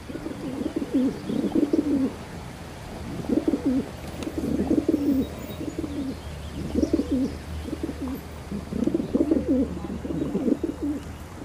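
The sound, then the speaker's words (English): Pigeons cooing in a low, throaty, rhythmic chorus of repeated coos, steady and continuous throughout, with no voices. “Combined with distinctive bowing and strutting, the cooing cacophony draws in potential mates while intimidating other males.”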